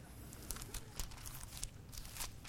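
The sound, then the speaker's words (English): Pages of a Bible being flipped through: papery crinkles and soft swishes overlap in an irregular run of brief rustles, kept fairly quiet. “And I apologize for flipping through my pages, but I forgot to write it in my notes.”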